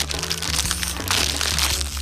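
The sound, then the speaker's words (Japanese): Crinkling plastic as a bag of candied sweet potato sticks is opened, giving a continuous rustle and crackle with no talk. “こちら目の前にあるんですけれども早速開けてみたいと思いますすごい量入ってますよこれ1人で食べるとお腹いっぱいになるんじゃないかしら開けますね”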